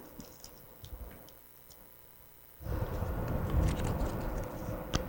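Wet squishing and dripping as a soaked 100-peso paper banknote is lifted out of water. Faint at first, it becomes a louder sustained watery rustle with small drips and squelches.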